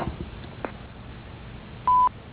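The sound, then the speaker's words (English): A single short answering-machine beep: a steady, high, pure tone lasting about a fifth of a second. It follows a stretch of low line hiss with a few faint clicks. “Please leave a message at the beep and we will get back to you promptly.”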